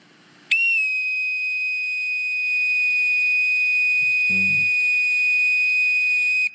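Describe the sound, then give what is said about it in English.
A bosun's call whistle held in the proper manner in a clenched position, sounding its low pitch: one long, steady, piercing tone with bright overtones that holds for about six seconds, with a brief soft knock partway through. “The first sound, starting by holding the bosun's call in the proper manner, is the low pitch. I am in a clenched position. I'll explain those later. Sounds like this.”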